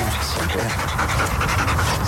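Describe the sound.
Steady panting from a female Belgian Malinois working in a police dog unit during search-and-rescue training: rapid, breathy, continuous, with faint talk underneath.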